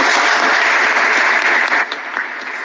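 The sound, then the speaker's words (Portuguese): Church audience applause greeting a couple's good news near the end of a Mass, a dense, steady wash of clapping hands that thins slightly in the final second. “uma salva de palmas”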